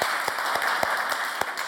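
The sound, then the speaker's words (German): Men in an audience applaud the women, a steady, dense patter of many hands clapping that holds at an even level from start to finish. “So, jetzt mal ein Applaus von den Männern für die Frauen.”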